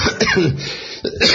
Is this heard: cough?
yes